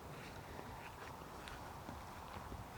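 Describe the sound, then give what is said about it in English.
Footsteps walking outdoors past a potato field: a steady run of soft, faint steps over a low wash of background hiss. “I'm just walking a little bit now past a field of potatoes.”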